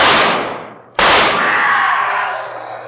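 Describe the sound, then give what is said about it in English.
Pistol fire in a moonlit cemetery: two loud, sharp blasts, the first fading quickly and the second ringing out with a long decaying tail. “Quick, fire your pistol.”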